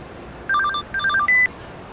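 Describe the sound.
A phone rings with an incoming call from Mom: a bright electronic ringtone of quick melodic beeping notes in three short bursts, heard alone over faint background hiss.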